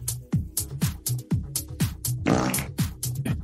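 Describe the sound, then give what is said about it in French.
Loud, low, raspy farts in a rapid rhythmic series, many bursts following one another with short gaps, one longer and noisier in the middle. “Arrêtez de péter.”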